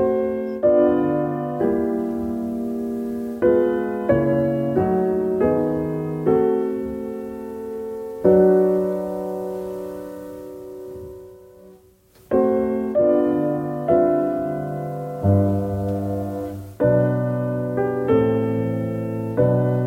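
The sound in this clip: Ambient music built on simple chords that keep resolving back home, each chord struck and left to ring and fade before the next. It plays alone with no voices, with a brief dip near the middle.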